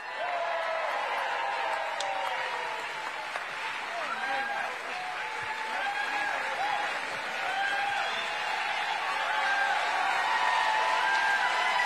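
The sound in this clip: An audience applauds to welcome a congresswoman at a campaign event, with dense, steady clapping lasting the whole stretch and a few whoops and cheers rising above it.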